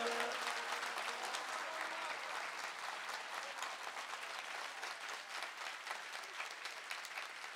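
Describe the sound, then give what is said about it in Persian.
Sustained, dense applause from an audience at an evening celebration, loud and steady for the whole stretch with no breaks, a thick wash of many hands clapping at once. “به اندازه ارادت دست بزن”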